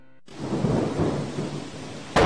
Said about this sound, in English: It was a dark and stormy night.